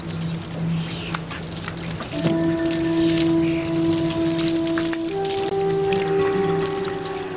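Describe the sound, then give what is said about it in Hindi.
Water rushes from a turned-on tap in a continuous, steady hiss, with ringing tones that step higher in pitch partway through. “پانی کھولو۔”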